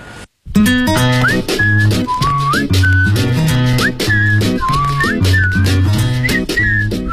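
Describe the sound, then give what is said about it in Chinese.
A person whistles a lively tune in clear, sliding notes over a steady instrumental backing, with the whistled melody gliding up between short held notes throughout. “口哨吹得不错呀。”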